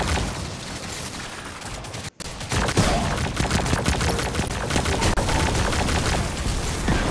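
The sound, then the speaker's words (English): In a video game, a Hydra enemy fires dense, continuous rapid gunfire at the player during a public match. The loud shots barely pause, except for a brief gap early on. “Getting shot at in the face by a dumb Hydra.”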